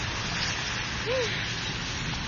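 Heavy rain falls as a steady, dense hiss that stays even and unbroken from start to finish, with no clear individual drops standing out.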